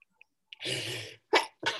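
Coughing after something went down the wrong way: one long, harsh, rasping cough followed by two shorter, sharp coughs, with a few faint breath clicks just before, all fairly quiet and without talk.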